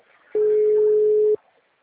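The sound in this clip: A telephone ringback tone sounds while a call is being placed: a single steady, pure tone lasting about one second, starting and stopping abruptly with near silence around it.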